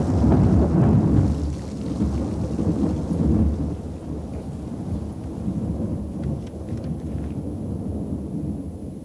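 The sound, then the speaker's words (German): Thunder crashing and rolling after lightning on a stormy night, a loud, continuous deep rumble with rain hissing through it, strongest near the start and easing slightly toward the end. “Prinz Eugen, schmetterte ein Blitz nieder, straßenweit die stürmische Nacht erhellend. Hinter ihm krachte, als risse er den ganzen Himmel mit sich heran.”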